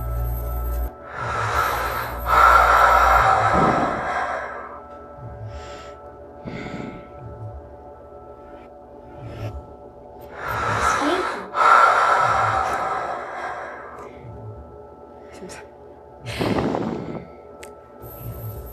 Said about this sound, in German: Und da verrät schon der Sound, dass es hier um die Atmung geht.